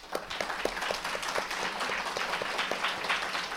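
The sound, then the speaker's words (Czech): Applause welcomes guests at a church gathering. Moderately quiet clapping keeps a fairly even, regular rhythm throughout. “Takže je srdečně vítáme, myslím, že můžeme zatleskat.”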